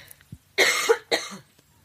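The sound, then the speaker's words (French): Two harsh coughs from a person in a conversation come in quick succession, the first longer and the second shorter, with faint small noises before them and near-silence after. “Je vais tousser.”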